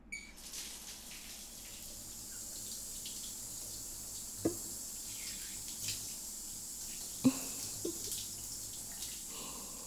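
Water runs from a tap as something is rinsed away. It makes a steady, even hiss broken by a few faint knocks or drips.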